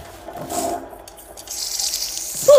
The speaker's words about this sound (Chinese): 哇，这怎么了？哪来的水啊？ 水管爆了！